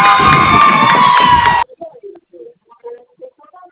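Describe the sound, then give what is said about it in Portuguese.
Office staff cheer and shout together to celebrate hitting a sales target. The loud burst of crowd noise lasts about a second and a half, then cuts off sharply, leaving faint, scattered voices. “Perdão pelo barulho, o pessoal comemorando meta batida aqui.”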